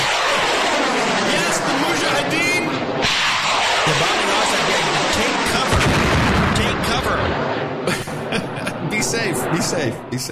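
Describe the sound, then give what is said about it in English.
Bombing sound effect of gunfire and explosions: a dense, loud, unbroken barrage of blasts and crackling bursts, with voices mixed into the din. “Uh-oh. Uh-oh. Oh, my goodness. John. They're bombing Austin.”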